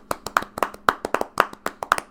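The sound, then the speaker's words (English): Polite golf clap: many crisp, separate hand claps in a steady, unhurried rhythm, each a sharp slap with a quick decay and no crowd or voices around it. “So I'd like to be a gracious winner of the regular season by going in and saying, good job, all you other teams. Golf clap to you.”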